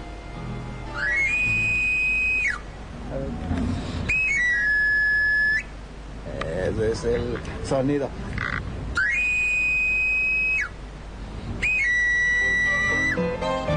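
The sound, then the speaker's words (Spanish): A street knife sharpener (afilador) plays the characteristic pan flute, or chiflo, four times: each run is a quick upward glide to a high held note that then steps down. A voice talks between the runs. “Ese es el sonido. El afilador, el que también algunos llaman el amolador, comerciante ambulante que ofrece su servicio de afilar”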